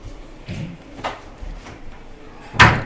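A door being shut, with a few soft knocks and rustles followed by one louder, sharp thud near the end.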